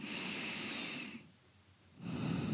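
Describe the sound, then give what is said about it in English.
A deep breath drawn in during a guided meditation: a long, steady, airy inhale, a brief quiet pause, then a strong exhale begins. “So let's start taking a deep breath”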